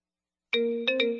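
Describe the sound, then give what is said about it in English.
A text message notification tone sounds as a bright three-note chime after silence. The first note rings a little longer, followed by two quick, clear strikes that hang and fade. “A Texaco text message from Jim.”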